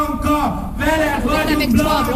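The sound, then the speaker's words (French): A protest crowd at an anti-government demonstration chants a slogan in support of a woman, with many voices raised together in a loud, sustained, rhythmic call over a dense background roar. “Devant la foule qui scande « Blanka, on est avec toi ».”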